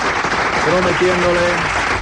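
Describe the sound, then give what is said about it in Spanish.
Strong applause sends off a guest in a radio studio, a dense and steady clatter of clapping that runs the whole way through, with a voice speaking over it. “Le despedimos con un fuerte aplauso.”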